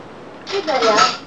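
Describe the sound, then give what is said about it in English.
A dirty plate being washed with dish soap and water: a short, dense burst of scrubbing and clattering that rises and then fades after under a second. “So washing the plate. Dirty. It's kind of soap for washing the plate.”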